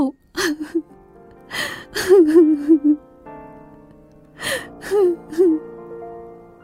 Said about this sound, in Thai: แล้วหม่อมแม่ก็เริ่มร้องไห้ต่อไปอีก โดยที่ยายก็มิได้พูดจาว่าอะไร ได้แต่นั่งถอนใจใหญ่